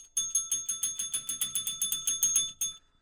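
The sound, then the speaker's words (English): Small bell rung to mark a segment, struck in a fast, even run of many bright metallic dings with ringing overtones, finishing with one last strike after a slight pause, loud and alone. “You know what that bell means.”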